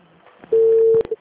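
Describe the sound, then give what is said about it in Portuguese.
A telephone tone sounds as a call is placed. After a few soft clicks comes one steady, mid-pitched tone of about half a second, followed by a brief click and a short repeat blip. “fazer uma ligação pro Joaquim”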